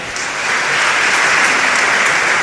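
Applause greets a parish priest of La Gomera as he is introduced: dense, steady clapping from many hands that swells during the first half second and then holds evenly.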